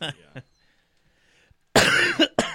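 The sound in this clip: Harsh coughing from someone recovering from a cold: a loud cluster of rough bursts follows a brief voice sound and a pause, then a last short cough.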